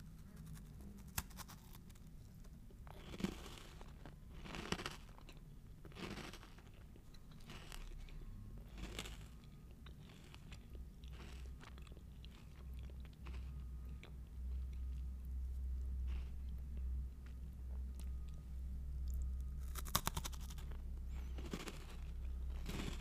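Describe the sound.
Quiet chewing and crunching of an oat snack with raisins: a few soft, irregular bites and mouth sounds with no talk.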